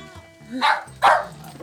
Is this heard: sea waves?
no